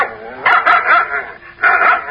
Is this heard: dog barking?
yes